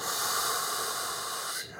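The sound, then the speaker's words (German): A single steady inhale during a box breathing exercise, a loud airy hiss that holds evenly for over a second and a half before cutting off. “Einatmen.”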